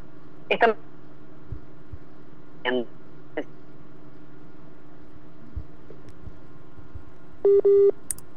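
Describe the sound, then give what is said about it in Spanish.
Telephone keypad tones as someone redials to reconnect a dropped call while rain disrupts the internet connection. Two short, bright tone bursts come near the end, after a few brief vocal sounds over faint background hum. “Vamos a tratar de recuperar la llamada con Melina Dazzano”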